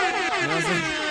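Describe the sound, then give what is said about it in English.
A loud vehicle horn blares on a Las Vegas street in one sustained, steady harmonic tone that holds for about a second. “I thought that was your horn doing that.”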